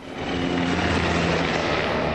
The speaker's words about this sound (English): U.S. helicopters rumble overhead following yet another car bombing.